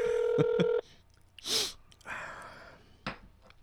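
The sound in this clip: A short burst of touch-tone telephone dialing beeps, pressed to place a call, heard at the start and followed by quieter clicks and scattered noises.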